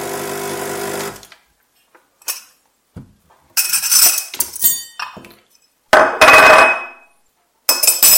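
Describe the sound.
A coffee cup and teaspoon are set down with clinking china and metal, in a few separate bursts of clatter with quiet gaps between. A steady mechanical whir opens the sequence.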